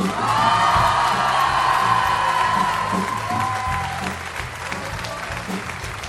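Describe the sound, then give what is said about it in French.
A loud ovation from an audience at a school music event, with sustained applause mixed with cheers and whoops, easing slightly toward the end. “C'est un travail de fourmi, c'est un travail titanesque, et j'aimerais une ovation absolument gigantesque pour Antoine Cognam.”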